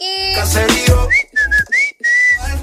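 A person whistling a few clear, high sustained notes separated by short gaps, with the pitch dipping and rising slightly. A brief, louder burst of other sound comes first.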